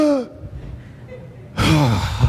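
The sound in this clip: A person imitates gasping for breath after swimming laps in a pool race: a short gasp, a quiet pause, then a long, loud, strained intake of breath.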